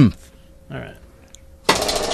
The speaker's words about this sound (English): I would love to spin the wheel.